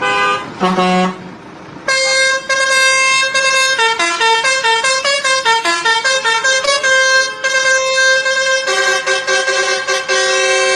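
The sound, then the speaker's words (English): A truck horn honks a string of loud multi-tone blasts. After a couple of short opening toots, the pitch steps up and down in a tune-like pattern over a long, sustained run. “I know this one says truck horn. This seems like a good one.”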